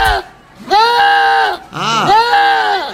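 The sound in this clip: A lamb bleats in a couple of long, wavering, nasal cries. They are loud and clear, with a short gap between them.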